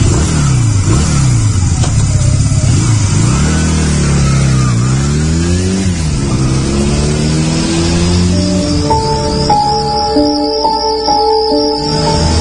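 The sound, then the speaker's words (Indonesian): Motorcycle engine revving hard as the rider speeds off for home, its loud tone sweeping up and down in repeated surges before settling into a steadier drone with a thin high whine on top. “Buru-buru aku menyalakan motorku dan langsung tancap gas pulang ke rumah.”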